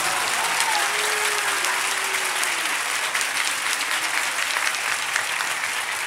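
An audience claps hands in sustained, dense applause that holds a steady, fairly loud level for about six seconds, with a faint crowd murmur beneath it.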